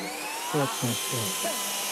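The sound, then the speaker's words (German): A fighter jet starts up with a loud, steady roar and a high whine that climbs in pitch, while a person speaks briefly over it. “Oh, jetzt startet der Düsenjäger wieder. Oh. Laut ist es. Dafür geht es wirklich flott.”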